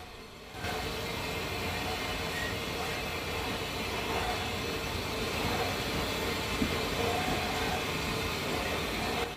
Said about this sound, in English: The train slows as it passes a long, low green building to the left on the outskirts of the station.